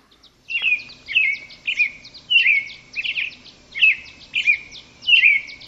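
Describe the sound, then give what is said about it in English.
Birds sing at sunrise on the South Rim of the Grand Canyon: many bright, high chirping phrases repeat in a steady rhythm over a faint, low background, with no voices. “Here's the sound of, maybe we'll take you back, Tony, birds at sunrise, South Rim, Grand Canyon.”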